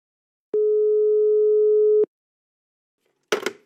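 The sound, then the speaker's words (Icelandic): A telephone ringing tone sounds as a call is placed to Patreksfjörður in Iceland: one steady, pure mid-pitched tone lasting about one and a half seconds, then silence, then a brief noisy burst. “Til að forvittnast betur um þetta flokna mál þarf ég að ringja vestur á Patræksfjörðum.”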